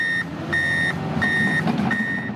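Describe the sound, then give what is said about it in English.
Truck reversing beeps at roadwork on Corkscrew Road, Estero: a steady run of four evenly spaced high electronic beeps over continuous engine and traffic rumble. “If you drive east in Estero, you can't miss the roadwork happening on Corkscrew Road.”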